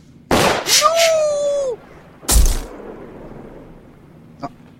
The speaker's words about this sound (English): did you just shot that girl? You shot her, didn't you? You bet I shot her